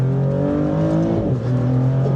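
A Maserati V6 engine revs on a race circuit with its exhaust opened up, a loud, steady, rich drone whose tone shifts partway through.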